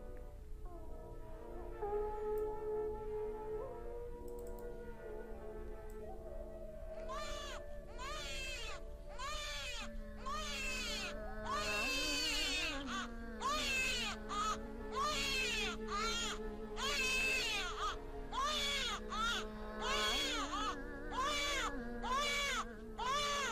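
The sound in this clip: A baby crying in many short, wavering wails that begin after several seconds and then recur steadily, over a low, sustained sung tune that runs throughout.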